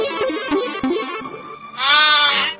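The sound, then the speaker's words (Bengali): A goat bleats in a few short, wavering, nasal calls, then gives one long, loud, quavering bleat near the end. “এই ছাগলটা ধরে রাখ।”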